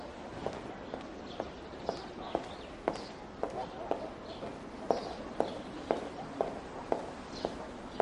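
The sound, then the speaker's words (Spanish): Steady footsteps of a woman walking along the battlemented wall of a castle: a long, even series of crisp, moderately loud steps at a regular walking pace, with no other sound standing out. “Lucrecia camina por la muralla almenada de su castillo.”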